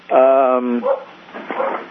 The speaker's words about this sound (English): Come on, dog. He's happy. Will not go in the house.